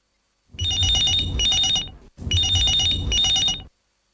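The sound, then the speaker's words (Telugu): An incoming caller's phone rings on a radio call-in show: two long, loud electronic ring bursts with a fluttering, trilling tone, separated by a brief pause, with no talk. “Hello FM కార్యక్రమంలో మరి చాలామంది ఉత్సాహంగా phone calls కోసము ఎదురు చూస్తున్నారు. మరి next caller ఎవరో చూసేద్దామా?”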